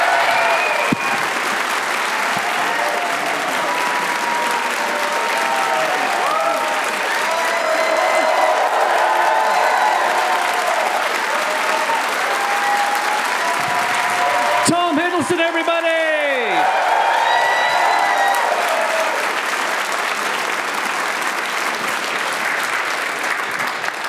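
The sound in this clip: Sustained applause and cheering from a live audience at Kings Place, London, greet Tom Hiddleston: dense, steady clapping with scattered whoops, and a voice briefly heard over the crowd partway through.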